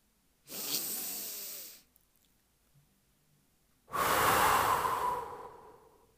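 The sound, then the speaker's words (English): Slow, deep breathing: two long, airy breath sounds separated by a quiet pause, each swelling and then fading, with no talk. “Give yourself permission now to take a moment to breathe.”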